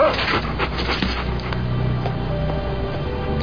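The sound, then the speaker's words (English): A dog gives a few short, sharp barks and yips over a constant noisy background. “Nasty ass dog.”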